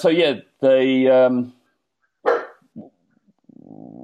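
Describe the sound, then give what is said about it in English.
A dog barks at home in a few separate loud bursts, some drawn out and tonal, with a gap of silence between them and a softer, lower sound at the end. “If you hear dog barking, then it's my dog”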